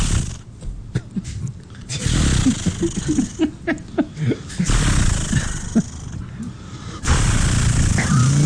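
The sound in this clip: A man's voice imitates a chainsaw starting and then running, a rough, growling, sputtering buzz that comes in uneven bursts before settling into a steadier rasping drone, with talk around it.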